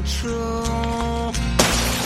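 A sugar-glass bottle smashing: one sudden, bright, loud shattering crash bursts in near the end, cutting across a steady tonal backdrop that plays before it.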